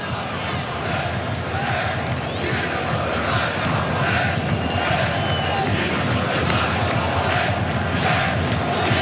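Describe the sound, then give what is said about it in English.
Moroccan football supporters roar and chant at a stadium in Foxborough during a match against France, a dense, unbroken crowd wall of voices holding a steady, loud level throughout. “It's the sound of the Moroccan supporters.”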